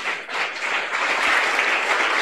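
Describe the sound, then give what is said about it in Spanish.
Congregation applauding during a church worship service, a dense, even wash of clapping that holds steady and loud for the whole stretch. “Aplauso para Cristo Jesús.”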